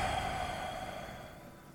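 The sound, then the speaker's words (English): A quiet, slow exhale during a guided breathing exercise, a steady airy hiss that fades slightly toward the end. “Inhale deep through the nose. Exhale out.”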